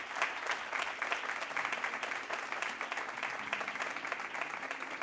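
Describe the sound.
An audience applauds after a live stage conversation at the Des Moines Social Club, a steady, dense wash of clapping that holds at an even level throughout.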